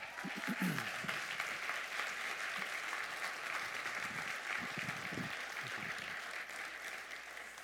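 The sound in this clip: Audience applause welcoming a pastor to the stage at a Sunday church service: steady, dense clapping that holds throughout and eases slightly toward the end, with a few voices briefly audible over it.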